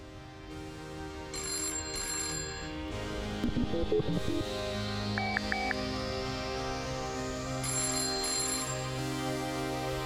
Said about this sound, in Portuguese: Eu vou rodar a vinheta aqui.